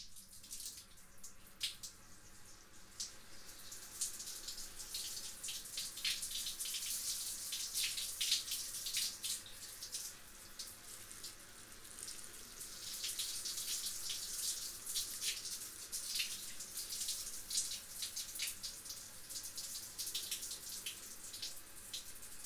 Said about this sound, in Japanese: 最後はもう一度髪をすすいでいきましょうか。